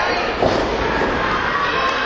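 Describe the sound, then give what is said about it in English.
A wrestler's body slam onto the ring mat in the center of the ring lands as one dull thud early on, set against a steady, loud roar from the crowd that fills the whole clip. “Body slam right in the center of the ring.”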